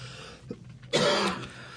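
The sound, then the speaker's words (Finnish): A single harsh cough or throat-clearing burst from a person with a tickle in the throat. A faint catch comes first, then the main rough, breathy burst of about a third of a second, which fades out. “Ja sen takia häntä nyt kovasti yskittää.”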